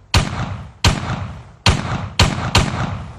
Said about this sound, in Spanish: ¿Qué fue eso? Alguien tiene un arma.